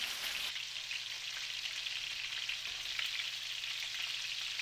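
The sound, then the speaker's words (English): Food frying skin-side in a pan on medium heat gives a steady, even sizzle with fine crackling. It is faint and continuous, with no talk over it. “Now we cook this on medium to make the skin a nice color. After that, we gotta turn the other side.”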